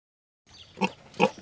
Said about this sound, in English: unveiled a herd of specially trained hogs capable of rooting out voter fraud